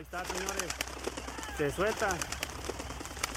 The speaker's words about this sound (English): That's the sound of thousands of pigeons being released.